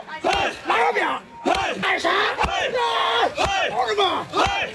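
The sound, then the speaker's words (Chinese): Yellow River dyke workers perform a traditional labour chant while driving wooden piles. Loud, rhythmic shouted phrases come in unison, each call swooping in pitch and separated by short pauses. “黄河号子是河工修堤筑坝时呼喊的劳动号子，一领重鹤用来统一步伐凝聚力量。”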